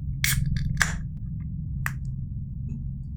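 A bottle of Galactic Pale Ale craft beer is opened: a few short, sharp hissing bursts of gas rise over a low, steady background hum, with quiet pauses between them.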